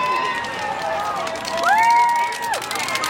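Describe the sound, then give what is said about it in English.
A crowd cheers and shouts for runners at Tower Bridge during the London Marathon. The wall of voices is loud and continuous, with steady hubbub throughout. “the cacophony of sound and people shouting your name. I'll give you a little taste of it now, because it is unlike anything you've ever heard in your life on a run. And this is what Tower Bridge sounds like.”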